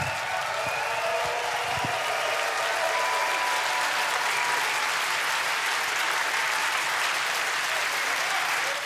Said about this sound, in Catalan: Entusiasme del públic dels dies de jazz de Leverkusen